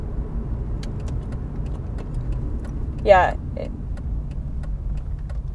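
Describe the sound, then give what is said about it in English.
A car driving onto a freeway: steady low road rumble throughout, with a brief voice and a short chirp midway. “Now we are going on to the freeway, the 25, as I like to call it”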